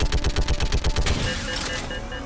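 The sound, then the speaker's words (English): Gunfire from a mega turret in a video game rattles off as a rapid, loud, evenly spaced burst of heavy shots, then gives way to a fading ringing tail. “So he's running forward, and we're just shooting anything that gets near his path.”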